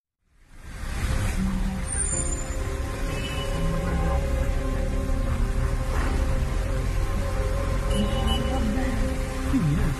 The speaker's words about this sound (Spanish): Intensas inundaciones azotan el sur de Rusia. Lluvias y granizo. Mirad esta imagen. Es impresionante. Vais a ver ahora el vídeo al respecto.